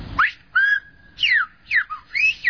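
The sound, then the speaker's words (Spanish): Silbo, the whistled language of La Gomera, performed at an exhibition by the Torre del Conde in San Sebastián: a series of loud, shrill whistled phrases with sweeping rising and falling glides, one held steady tone, and short pauses between them, with no talk. “Estamos aquí en San Sebastián, en la Torre del Conde, y venimos a hacer una exhibición de silbo.”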